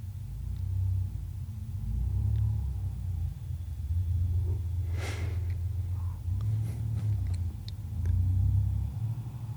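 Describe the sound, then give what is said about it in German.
An air-cooled boxer engine of a Porsche 964 rolls off a yard with a deep, steady low rumble that swells slightly now and then, alone without voices. “luftgekühlter Boxermotor genau. 964er Porsche. Gerade vom Hof gerollt”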